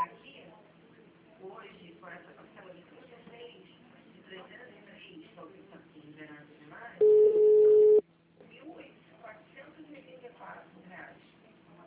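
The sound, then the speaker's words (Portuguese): An automated telephone answering system sounds a single loud, steady beep about a second long. It comes between stretches of recorded voice prompts. “Atendimento digital. Após o sinal, digite o ramal desejado ou aguarde.”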